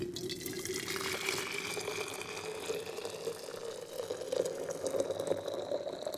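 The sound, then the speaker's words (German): Hot onion tea pouring in a steady, continuous liquid stream with a gentle trickling texture, lasting about six seconds at an even, moderate loudness with no voices. “Und deshalb bekommen Sie jetzt alle einen heißen Zwiebeltee.”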